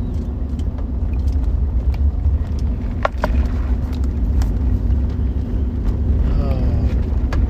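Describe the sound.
Steady road rumble of a car driving around a city, a continuous low drone of engine and tyre noise with no talk.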